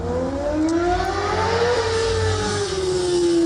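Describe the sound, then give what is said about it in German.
Car engines revving loudly as show-off cars race along straight city streets in Bremen's Überseestadt district; the engine note climbs steadily, dips slightly, then holds a high, sustained roar to the end. “Wer in der Bremer Überseestadt wohnt, muss allerdings fast jedes Wochenende das ertragen, weil Autoposer diese schönen, schnurgeraden Straßen da nutzen, um ihre Protzkarren vorzuführen.”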